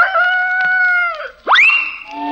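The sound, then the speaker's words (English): A rooster crows once: a loud, harmonic call holding a steady tone, a brief break, then a sharp upward swoop into a bright, held final note. “The cock crows and she's gone, vanished like thin air.”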